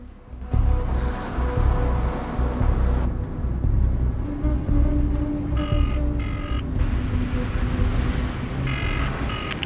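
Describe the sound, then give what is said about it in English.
A taxi pulls away from the pavement: a steady low engine and road rumble runs through the whole stretch, with a few faint high tonal bursts partway through. “She gets out and waits on the pavement. The taxi drives off.”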